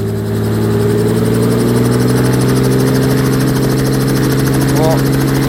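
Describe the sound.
A helicopter engine runs before takeoff, a loud, steady droning hum with a continuous whirring rotor sound, while a person talks over it.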